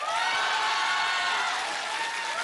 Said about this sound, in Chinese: 居然得到了这么热烈的掌声。